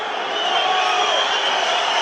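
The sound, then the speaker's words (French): Rugby stadium crowd noise as Perpignan supporters press the referee during a stoppage for an injured player: a steady, loud, hissing roar of many voices with no clear breaks. “Et le public qui met la pression, on réclame un arbitrage vidéo pour savoir pourquoi le joueur Perpignanais est au sol.”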